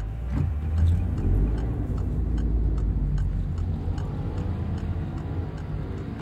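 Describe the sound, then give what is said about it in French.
Deep engine rumble and road noise come from a large grey BMW 520d E39 estate car about twenty years old. The steady low drone carries faint ticking on top, with no talking. “c'est votre voiture. C'est ça. Un gros break gris, C'est quoi comme modèle ? C'est une BMW 520D E39,”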